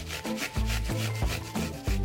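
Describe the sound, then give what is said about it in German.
Rhythmic rasping scrapes of an onion being grated on a four-sided box grater, about six steady back-and-forth strokes at an even pace, with no talking. “Deswegen werde ich sie nicht schneiden, sondern mit so einer Vierkantreibe reiben.”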